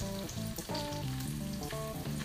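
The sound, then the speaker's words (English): Rice sizzles as it fries in a pot, a continuous crackling hiss lasting a couple of seconds beneath steady tonal music with shifting chords. “I'm gonna just give it a little bit of a fried action there.”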